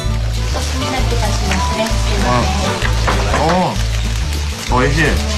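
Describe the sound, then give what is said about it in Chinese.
Duck meat frying in a sukiyaki pot, a steady crackling sizzle that runs unbroken for the whole clip while a person talks over it. “这就是传承了百年的鸭肉寿喜锅。而服务员在一旁煎着”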